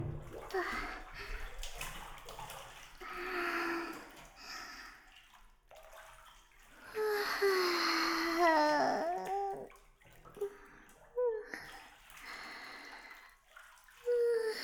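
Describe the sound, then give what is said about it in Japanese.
Water sloshes and splashes as people lower themselves into a hot bath, with uneven swishing surges that come and go and brief vocal sounds over the water. “それでは、私たちもお風呂に入らせていただきますね。失礼しまーす。”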